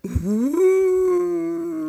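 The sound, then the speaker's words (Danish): A voice imitates a wolf howling with one drawn-out tonal call. The pitch rises at first, then holds steady and slowly fades, lasting under two seconds. “Ej, hold nu op med at hyle.”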